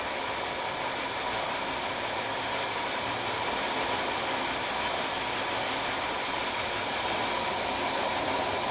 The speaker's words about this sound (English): Soup comes down from the kettle upstairs where we saw it, down through this pipe into the filling machine.